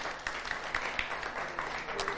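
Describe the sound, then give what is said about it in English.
Audience applause, a dense, steady wash of many hands clapping that is fairly soft and keeps an even level throughout, with no voices over it. “Give these guys a round of applause.”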